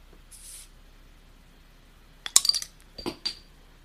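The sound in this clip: Glasses clink in a toast: a cluster of a few bright, ringing clicks, then another brief pair of quieter knocks, against near silence.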